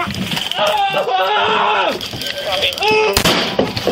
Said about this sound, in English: It's his shot. He tried to shoot the officer. They shoot him.